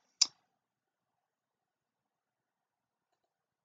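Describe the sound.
A single crisp click of a computer mouse, brief and alone, followed by near silence.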